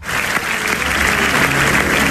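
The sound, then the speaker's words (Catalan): A theatre audience gives an ovation after the premiere of a new comedy in Barcelona: dense, sustained clapping fills the whole stretch at a steady, loud level with no pauses. “Aquesta és l'ovació que va seguir ahir l'estrena de Fitzroy al Teatre Borràs”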